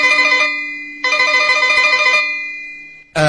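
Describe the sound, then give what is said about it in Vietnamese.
A telephone ringing in an office: three bright, electronic, bell-like ring bursts with steady high tones, the middle burst longer and slowly fading before the third begins, with no voices. “Ông Trân vào phòng làm việc, vừa ngồi xuống ghế thì chuông điện thoại reo vang.”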